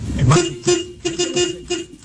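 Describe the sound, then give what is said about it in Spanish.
Car horns honking in a traffic jam in Colombia, a series of short, repeated toots at a steady mid pitch in quick succession, with voices over them. “Otra vez. Otro, ese es otro. Otro, tengo otro pito. Ey, dejen la pitadera”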